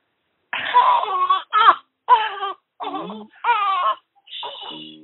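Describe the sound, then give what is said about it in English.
A six-day-old newborn baby cries after waking up, in several short, high, wailing bursts separated by brief breaths. “The baby wakes up while we're talking.”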